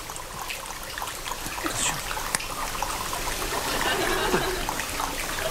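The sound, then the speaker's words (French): Flowing water sound effect meant to evoke a kayak being paddled, built from three human-made sounds layered together: a steady, fairly loud trickling and splashing wash that runs unbroken throughout, swelling slightly toward the end, with no distinct strokes standing out. “C'est génial. Ça marche bien, hein? On dirait vraiment de l'eau qui coule, non?”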